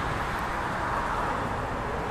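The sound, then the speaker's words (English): Steady street traffic noise, a continuous low rumble with a broad hiss of passing vehicles, holding an even level throughout with no clear voices over it. “Sorry, the traffic's throwing me off here. I know it's kind of noisy.”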